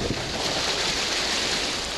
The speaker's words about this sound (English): See, there's this little white water down there. Head for it, and then down that little drop.